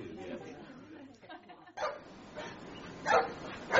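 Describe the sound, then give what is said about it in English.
A badly behaved dog barks a few times in sharp bursts, alongside talking voices. “I'm sorry about my dog. It's very badly behaved.”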